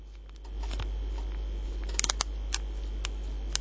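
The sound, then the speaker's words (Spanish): Small sharp clicks come from pressing the middle of a vacuum-sealed container lid. A quick cluster of faint snaps is followed by a few more spaced-out clicks over a low steady hum. “¿cómo podemos hacer para comprobar que esté cerrado al vacío? Tenemos que apretar en el medio y tiene que hacer este ruidito.”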